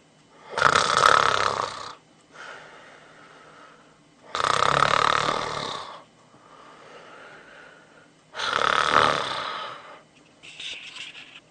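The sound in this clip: A person snoring in sleep: three loud, rasping snores at even intervals, with softer breathy exhales between them and a fainter snort at the end, with no talk.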